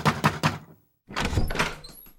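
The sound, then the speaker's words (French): Three firm, evenly spaced knocks on a door land as low, hollow thuds. After a short silence comes a longer, muffled rumbling stretch of further door noise. “Soudain, on frappa à la porte.”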